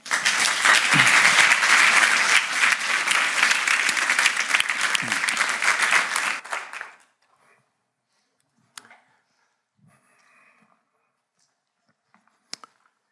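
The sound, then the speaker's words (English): Audience applause welcomes a guest speaker at an evening lecture in Nijmegen. Steady, dense clapping lasts about seven seconds, then stops abruptly, leaving near-silence with a few faint clicks. “Please give him a hand of welcome.”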